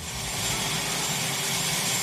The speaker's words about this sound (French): Il fait nuit noire quand l'hélicoptère se pose sur la pelouse de la Maison-Blanche.